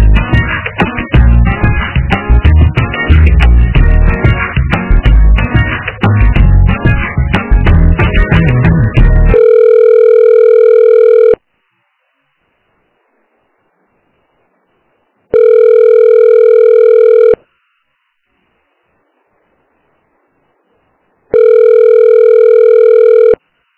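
A telephone ringback tone plays while a call is transferred to a municipal taxes department: three steady two-second tones separated by about four seconds of silence, preceded by a loud, dense stretch of other sound.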